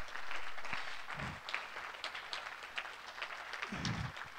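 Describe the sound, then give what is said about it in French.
A church audience applauding its leadership: faint, scattered clapping from many hands, steady and soft throughout, with a few low murmurs underneath. “Et j'aimerais vous demander juste de pouvoir juste acclamer, encourager tout le leadership de Clé, s'il vous plaît, parce qu'il faut.”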